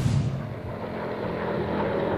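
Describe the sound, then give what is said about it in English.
An automated vehicle arrives at a goods entrance with a steady, droning motor hum and whooshing air, holding an even loudness throughout with no voices. “Vehicle now arriving at Bureau of Correction. Goods entrance. Safety rail retracting.”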